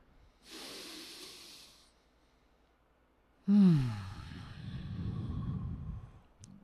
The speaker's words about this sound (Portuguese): Inspira uma última vez.